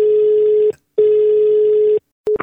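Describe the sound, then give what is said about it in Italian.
A telephone ringback tone plays as a call connects on a radio phone-in show. Two long, steady, low-pitched tones are separated by a short pause, and the start of a third tone is heard at the end alongside other noise. “Andiamo subito al telefono su Radio Toscana”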